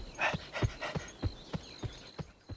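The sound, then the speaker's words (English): Dogs panting after a long walk across hills: steady, rhythmic breathy huffs, about eight quick pants in a row, fairly faint and with no voices. “Above the city, Clifford, Cleo and T-Bone, panting from all the walking, continue to trudge across the hills.”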